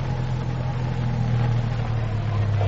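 A car's engine rumbles steadily as it pulls in to park, a low, even hum with no clear revving and no voices.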